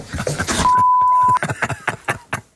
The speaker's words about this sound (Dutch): We hebben in 11 seconden 3 vloeken weggepiept.